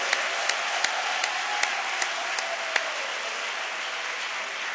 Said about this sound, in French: Je veux que vous puissiez vous-même vous acclamer. Acclamez-vous encore.